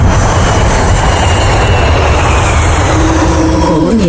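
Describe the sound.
An airplane roars through its takeoff as the sound effect for a radio show intro. The dense, loud engine rumble holds steady throughout, with no voices over it.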